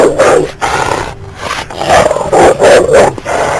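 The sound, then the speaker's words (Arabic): A dog gives harsh, rough growls and barks in several loud bursts separated by short pauses, with no one talking. “سمعت صوت كلب واقف، لقيت واقف جنبها”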